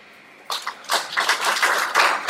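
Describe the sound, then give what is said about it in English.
Audience applause breaks out at a council of ministers meeting to honour a newly elected director general, a dense, steady patter of many hands clapping that swells after a quiet start and keeps going to the end. “to stand up for recognition and a very big applause for him.”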